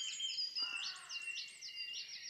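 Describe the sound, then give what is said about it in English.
A wren sings a faint, high, rapid stream of trilled and warbling notes in quick repeated phrases. “Oh, here, Wren there now, singing away.”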